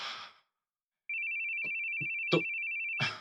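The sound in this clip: A phone rings with a steady, high electronic tone lasting about two seconds, broken by a few short bursts of sound. A brief voice comes just before it, followed by a moment of silence.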